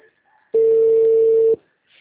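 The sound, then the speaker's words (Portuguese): A ringback tone from a telephone call that goes unanswered: one steady, mid-pitched electronic tone lasting about a second, loud against near silence. “Que ódio. O número não responde.”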